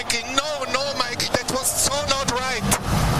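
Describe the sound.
Formula 1 cars race through a corner, their engines whining in rising and falling sweeps as they brake and accelerate, under a voice speaking throughout.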